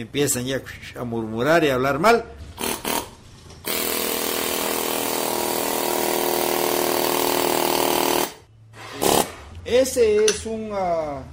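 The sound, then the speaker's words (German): Pneumatic air chisel carving marble, giving a loud, continuous buzzing hiss that lasts several seconds without a break. People talk before and after the tool runs. “Das ist eine Druckluftpistole. Die Luft, die nach draußen gedrückt wird, bewegt den aufgesetzten Meißel. Und damit lässt sich der Marmor leicht bearbeiten.”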